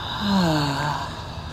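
A long breath out through the mouth during a guided deep-breathing exercise, heard as a steady, fairly loud rush of airy noise lasting over a second.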